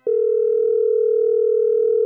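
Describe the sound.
A steady telephone tone sounds as a call is placed to a friend: one unbroken, loud hum lasting about two seconds.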